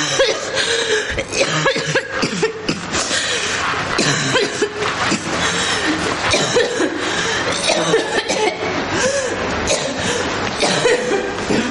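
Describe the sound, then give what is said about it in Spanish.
A young woman coughs and retches after getting out of bed, a long run of harsh, repeated coughs and gagging heaves over a dense, noisy background. “Se dirige al fregadero y abre el grifo para calmar las arcadas que le produce la tos.”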